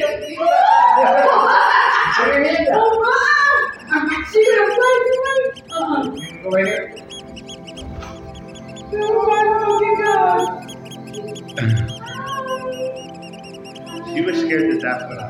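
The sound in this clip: A pet scarlet macaw parrot gives loud, harsh, high-pitched squawks and screeches in several bursts with brief gaps between them, alongside people talking.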